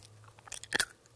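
A child chews crisp cooked chickpeas, making a few quick, faint crunches that end in one louder crunching bite.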